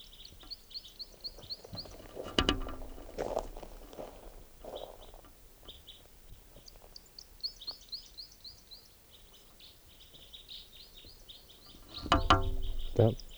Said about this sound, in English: Here's that bird.